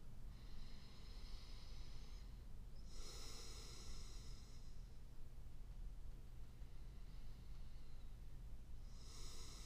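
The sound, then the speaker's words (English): A slow, deep breath drawn in with a soft, breathy hiss, followed by a second inhale at the very end, both faint over a steady low background noise. “If I just take a deep breath”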